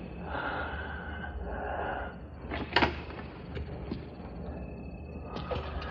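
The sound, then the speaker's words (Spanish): A door is closed carefully in a sickroom, giving one brief soft knock or click over a low, steady hiss, with no voices. “La chica sale cerrando la puerta con cuidado.”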